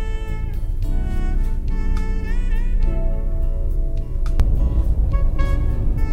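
Steady engine and road noise from a car creeping forward in slow stop-and-go traffic, a continuous low rumble with tonal overtones that holds at an even loudness throughout, with no talking.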